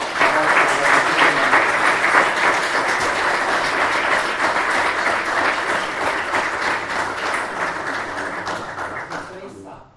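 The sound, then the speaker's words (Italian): A crowd claps at the end of a church Mass with the Eucharist and Te Deum. The applause is dense and steady for about ten seconds, then tapers off at the end. “il Signore, ma con un applauso esprimiamo”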